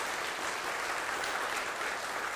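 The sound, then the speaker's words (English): Applause from a worship audience: a dense, even patter of many hands clapping steadily for the whole stretch, with no single voice standing out. “So can we give King Jesus one round of applause?”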